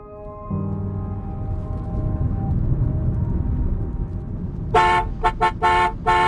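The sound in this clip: Car horns honk in traffic during a taxi ride. A long, sustained horn note near the start gives way to a cluster of several short, loud toots, all over a steady rumble of engine and road noise with no voices.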